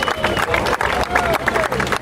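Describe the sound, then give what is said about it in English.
Applause from a crowd of French people, a dense, steady patter of clapping with voices and crowd chatter mixed in throughout. “Zog, you got a round of applause from the French people for that.”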